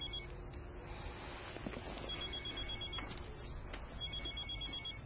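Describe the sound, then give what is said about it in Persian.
A telephone ringing faintly, its thin high tone repeating over a steady background hiss. “خب میگی چی کار کنم؟ از صبح تا 200 بار زنگ زده بنده خدا. نگرانه دیگه.”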